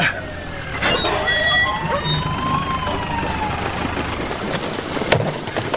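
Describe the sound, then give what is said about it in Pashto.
An ambulance siren as the vehicle arrives, wailing tones sliding in pitch over a rumbling engine, with some talk mixed in. “د امبولانس غږ شو، لکه چې ډاکټر صاحب خالد راورسېده.”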